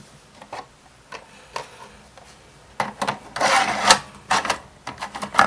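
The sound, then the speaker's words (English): An 88 megabyte removable disk cartridge slides into its drive, locks and spins up: a few soft rubbing clicks, then a louder burst of rattling, whirring mechanical noise with more sharp clicks after it. “It's in the drive now. Isn't that great? Oh, man. Spin it up. First click in, now it's locked. This is the 88 megabyte one, you can tell because it's a little louder.”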